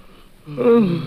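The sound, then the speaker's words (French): A person yawning: a quiet breathy inhale that swells into a short, drawn-out voiced yawn, louder toward the end. “Là, tu vois, quand t'as envie de bailler, tu bailles comme tout le monde, non, alors. Tu es idiot. Et ça, je vais pouvoir bailler tranquillement.”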